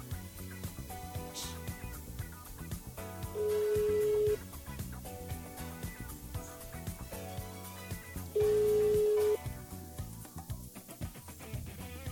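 Ringback tone of an outgoing telephone call: two steady, even tones, each about one second long and about five seconds apart, over faint music playing in the background.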